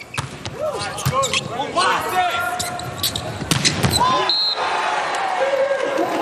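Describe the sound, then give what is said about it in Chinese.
Volleyball being served during a match, with a few sharp ball strikes cutting through constant excited commentary and crowd noise. “永贞来发球”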